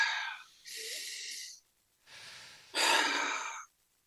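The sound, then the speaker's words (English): A person takes deep breaths during a guided breathing exercise, with a few slow, airy inhalations and exhalations separated by short silent pauses. The breaths sound clear and fairly soft. “Okay, take another deep breath.”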